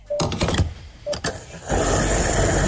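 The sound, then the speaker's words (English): A fuel pump runs while a car is filled up. A few short mechanical whirring bursts come first, then the whir settles into a steady, louder hum that continues to the end. “Do you want us to start filling up the car?”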